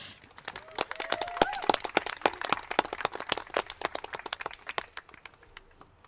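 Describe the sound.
Applause from an audience welcoming a performer at a playwrights festival: crisp, scattered claps swell early, stay busy for a while, then thin out and soften toward the end.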